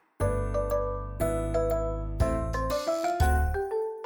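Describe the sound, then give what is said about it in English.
A bright chiming jingle plays alone, several clear bell-like tones ringing one after another in a short melodic run and sustaining between strikes, signalling a page turn. “When you hear this sound, turn the page.”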